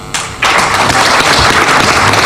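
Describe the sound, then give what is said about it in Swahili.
Audience applause after a welcome speech at an evening event in Kizimkazi, Tanzania, with a brief lead-in before dense, loud clapping bursts in and stays steady to the end. “Makofi mengi, mengi, mengi kwa Bi Msese.”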